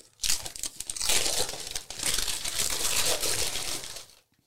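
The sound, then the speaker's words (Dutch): Paper wrapping is torn open and crumpled off a book of Afghan recipes in a series of loud, crackling, ripping bursts lasting a few seconds before falling silent, with no voices. “Ik mag hem openmaken. Ja, ja scheur maar open.”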